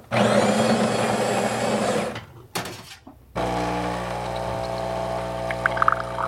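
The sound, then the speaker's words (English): A coffee machine grinding freshly roasted beans from South Minas, Brazil: a loud, steady motor whir stops after about two seconds, then a short clatter, then a second sustained buzzing run with faint clicks near the end. “Put into the machine. The machine grinds the coffee and makes the coffee right away.”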